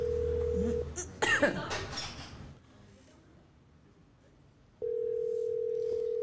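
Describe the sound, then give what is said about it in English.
Ringback tone of an unanswered phone call: a steady, even tone plays at the start, breaks off for a cough and a quiet pause, then returns unchanged to the end. “if Marvelous doesn't answer his phone”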